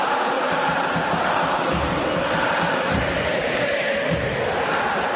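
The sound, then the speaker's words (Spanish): Football stadium crowd before kickoff: a steady, dense roar of thousands of fans with chanting and shouting blended into a continuous wall of sound that stays loud and even throughout. “Así está el Monumental hasta ahora,”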